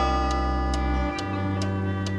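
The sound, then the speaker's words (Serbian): An old, broken clock ticking: five soft, evenly spaced ticks about half a second apart over a sustained musical drone. “ali ja i dalje brojim svaku sekundu i čekam da moje vreme konačno opet dođe. Ne fali meni mnogo toga da budem kao i svi ostali, zdravi satovi.”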